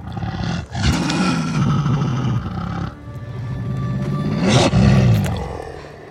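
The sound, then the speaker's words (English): Snarling roars of a wolf pack sound effect built entirely from one dog's vocalizations: two long, loud, rough growling calls, each with a low tone throughout. “the return of Nymeria scene when she returns to visit Arya with her wolf pack. And every voice in that is my dog Angel.”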